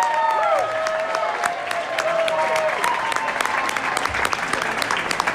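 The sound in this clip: An audience applauds and cheers as a singer is brought out on stage. Dense, steady clapping runs unbroken for several seconds with no speech over it.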